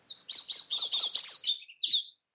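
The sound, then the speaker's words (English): A pine siskin, a small migratory finch, gives a rapid run of thin, buzzy high chirps that blur together, followed after a brief gap by one separate, slightly lower call. “In California, that's mostly pine siskins, which are a small finch. Finches that migrate south from Canada.”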